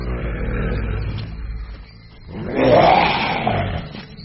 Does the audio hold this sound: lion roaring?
yes